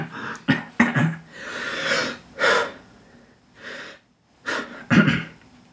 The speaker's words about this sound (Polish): Muszę wziąć większy wdech.